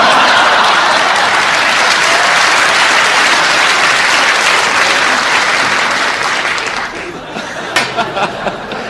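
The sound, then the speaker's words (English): A frantic crowd at a fight bursts into loud, dense applause and cheering that holds steady, then eases near the end into a few scattered claps and some laughter. “The crowd is getting frantic”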